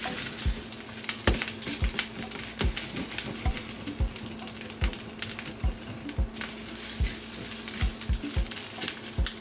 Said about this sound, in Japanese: ここでちょっと火の調整が難しいから心配やけどもうちょっとこんがり焼きたいなもうちょっとこんがり焼こうか